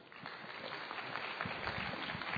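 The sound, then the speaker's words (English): Quiet applause follows a debate, a soft, steady patter of many hands that grows slightly fuller toward the end. “So that concludes the debate. So please give everybody a round of applause.”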